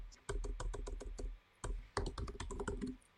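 A computer keyboard is used to type a group name. Rapid key taps come in two quick bursts separated by a short pause, crisp and fairly quiet.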